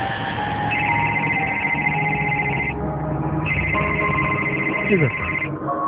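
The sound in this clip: A telephone rings in two long, trilling bursts separated by a short pause, loud over a steady background bed of other sound.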